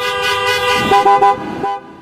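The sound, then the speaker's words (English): Car horns honking outside the Michigan state Capitol during a protest by armed demonstrators against stay-at-home orders: a sustained horn tone layered with several short, overlapping toots, loud and continuous before trailing off. “in Michigan, the state legislature suspended its session after armed protesters took to the Capitol while thousands honked their horns outside.”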